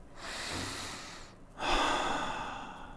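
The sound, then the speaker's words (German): A single deliberate breath: a slow, soft inhale, then after a short pause a louder, airy exhale, quiet and with no speech around it. “Und noch weniger ein bewusster Atemzug.”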